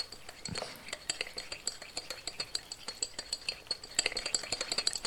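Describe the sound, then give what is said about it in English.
Stirring with a utensil, giving quick metallic clinks and scrapes in a busy, steady rhythm, fairly faint and without talk. “Oh, you want to help me stir?”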